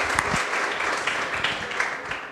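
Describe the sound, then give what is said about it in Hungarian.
Applause from a lecture audience for the winner of a quiz question: a steady wash of clapping from many people, even and moderately loud across the whole stretch, with a few sharper claps poking out. “Az igazság, megvan a második győztesünk. Tapsoljuk meg őt is.”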